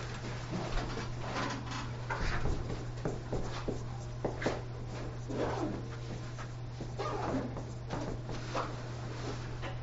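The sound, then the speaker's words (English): Hand writing out equations, faint scratchy strokes that come and go in short bursts over a constant low hum. “All right, let's write these three equations.”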